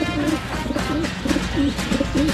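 A pigeon coos in a cartoon, giving a series of soft, low, rolling coos repeated at a steady pace with no talk over them.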